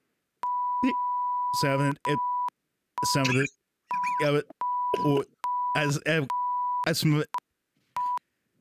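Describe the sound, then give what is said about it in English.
Censoring bleeps: a steady, high pure beep switches on and off in several stretches, interleaved with and partly overlapping bursts of people talking, and ends with one short final beep. “Wait, bleep noise. Get ready for the bleep noise.”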